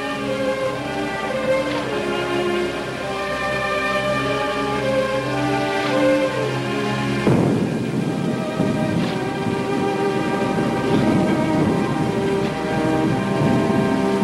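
Heavy rain streams down the sides of a barn in a steady, dense hiss, with a deep rumble of thunder breaking in partway through.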